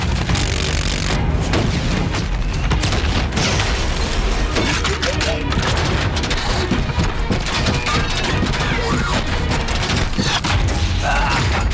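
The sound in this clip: Rocket fire and explosions make a loud, continuous barrage of booming blasts, crashing and splintering debris, with voices heard amid the chaos.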